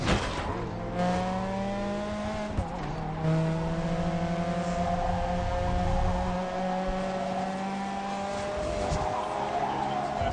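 Racing cars roaring around a track in a video game, with whining engine tones held at steady pitches that jump between levels a few times and give light tire-squeal textures. No talk.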